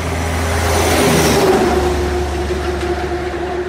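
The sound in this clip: A diesel truck on full tanks of fuel and DEF revs as it is put in gear and driven off: a loud, steady engine drone whose low rumble shifts about a third of the way through.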